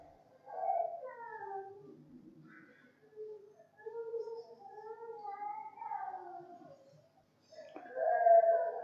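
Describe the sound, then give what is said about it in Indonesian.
A small child cries nearby during a religious sermon, in a few drawn-out wailing bursts with wavering pitch, separated by short pauses. “Iki bocah nangis ning kene apa suara sound system lain ya? Oh, masya Allah, ada anak kecil ya.”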